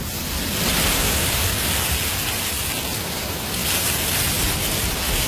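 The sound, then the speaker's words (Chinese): A conch shell held to the ear gives a soft, steady, ocean-like rushing hiss, even and unbroken with no distinct waves or voices. “妈妈说，把海螺放在耳边，就能听到大海的声音。你听。”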